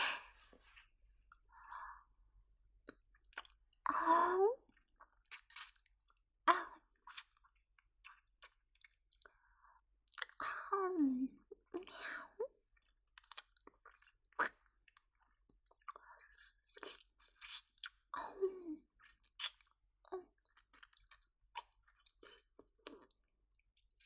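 Wet mouth sounds of nibbling and licking: soft smacks, squishy clicks and slurps come in many irregular bursts separated by near silence. They sound quiet and intimate throughout.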